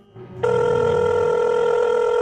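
A telephone rings for an incoming call: a single steady electronic ring tone begins after a short, quiet lead-in and continues unbroken to the end.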